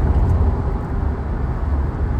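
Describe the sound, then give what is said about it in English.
A car drives into a town's city limits, producing a steady low rumble of engine and road noise that stays even throughout, with no distinct events. “I'm literally driving into the city limits of my sister's town.”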